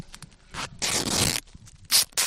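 Duct tape is pulled from the roll and torn in a few sharp, rasping rips with short pauses between them, as someone gears up in a beekeeping suit. The rips are fairly quiet and no voices are heard.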